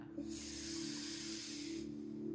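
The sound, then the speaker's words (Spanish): A deep, slow inhale during a guided breathing exercise, a soft, steady breathy hiss lasting about a second and a half over a low, constant drone. “Quiero que cierren los ojos y respiren. Inhala”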